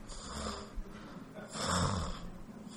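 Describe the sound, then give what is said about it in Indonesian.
A voice imitates the snoring of someone dozing off during a sermon: two rough, rasping, throaty snore breaths, loud and noisy, with a short pause between them. “begitu pendeta mulai khotbah, dia mulai”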